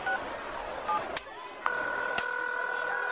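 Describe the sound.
Telephone dialing as a call is placed: two short beeping keypad tones, a sharp click, then a long steady tone that runs to the end, broken by one more click.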